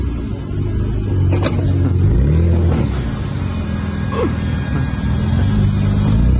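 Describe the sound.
A car engine gives off a low, heavy rumble that holds steady and loud throughout, with faint clicks and rattles over the continuous drone.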